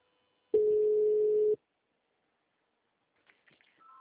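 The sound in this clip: A telephone ringback tone plays while an outgoing call connects: one steady, mid-pitched tone lasting about a second, then silence, and a faint voice briefly near the end.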